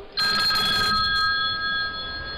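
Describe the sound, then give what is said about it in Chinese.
A telephone rings after a call is dialled. The loud electronic ring holds bright, steady tones to the end, with a rattling buzz in the first second that breaks into short pulses before fading out. “不信呐，我这就给他打电话。嘟嘟嘟嘟嘟”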